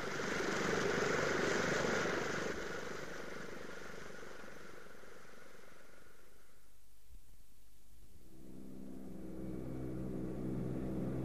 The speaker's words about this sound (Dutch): Kijk eens naar beneden. We vliegen over Corawa.